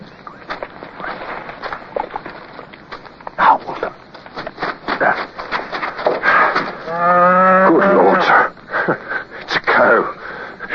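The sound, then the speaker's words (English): A cow gives one long, low, droning moo near the end, set against scattered rustling, shuffling and breathy noises. “You go back to the column and have the men come forward and pass the word that there are cows about.”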